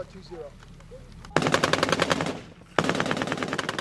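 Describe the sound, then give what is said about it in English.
Rapid automatic AK-47 rifle fire in a firefight with a patrol, two loud sustained bursts of dense cracking shots separated by a brief lull, standing out sharply against a quieter background. “They fire at the patrol with AK-47s and rocket-propelled grenades, then disappear.”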